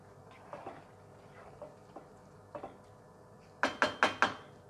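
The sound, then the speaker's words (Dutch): Kitchen clatter as an oven is opened to take out courgette that has baked about ten minutes: scattered light clicks and taps, then four quick, louder metallic clanks in succession. “Ik ga nu de courgette uit de oven halen.”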